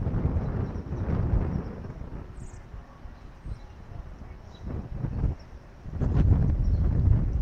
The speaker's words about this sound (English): So that way you can hear, like you hear the wind now. Oh boy, boy, that just picked up in a hurry.